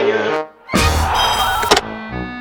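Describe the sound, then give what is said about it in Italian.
Windows being opened: a sudden loud burst of broad rushing noise lasting about a second, set between steady tonal sound before and after. “conto fino a 3, altrimenti apro le finestre. 3, 2, 1, apro le finestre!”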